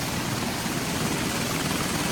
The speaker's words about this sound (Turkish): Paylaşılan görüntülerde de ABD askerlerinin el konulan petrol tankerine helikopterle düzenlediği baskın anlarına yer verildi.